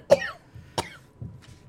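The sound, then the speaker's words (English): A person coughs after laughing hard: two sharp, harsh coughs and a softer third, followed by a faint trailing breath. “I started laughing so hard I had to cough.”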